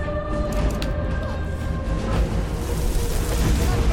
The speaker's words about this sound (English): That was a nice big blast of fire, and I'm out of magicka.